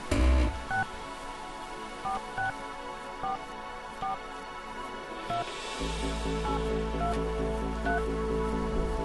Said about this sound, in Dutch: We gaan weer een artiest bellen.